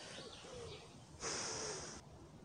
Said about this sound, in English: You can hear that wood pigeon in the background.